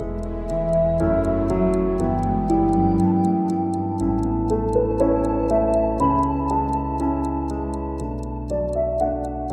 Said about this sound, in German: wie sich der Sekundenzeiger von der Uhr auf einmal anfängt zu bewegen aber nicht so wie sonst immer, sondern rückwärts.